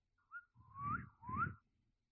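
Whistle signals meant to cue hand movements: a short high chirp, then two longer whistled notes that each rise in pitch, fairly soft, with breathy low noise beneath and no talk.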